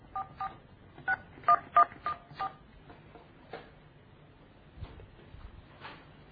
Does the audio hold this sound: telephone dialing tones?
yes